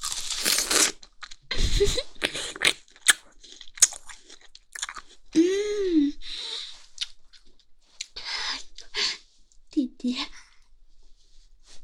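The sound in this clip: Chewing and biting into crunchy chicken leg meat: many irregular crisp crunches and wet chews, with a few brief vocal murmurs between the bites.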